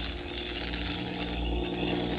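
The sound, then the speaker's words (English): A truck approaching on a road, heard as a faint, steady, low engine drone that swells slightly toward the end. “Here comes the truck now.”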